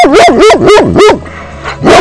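A dog barks loudly: four sharp barks in quick, even succession, a brief pause, then one more bark. No voices are heard.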